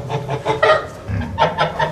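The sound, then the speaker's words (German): Agitated, anxious geese kept on a farm in the countryside give a series of harsh, honking calls, one burst early and another later, with no talk. “eine Gans ist ja ein Herdentier. Die leben ja in einer Herde.”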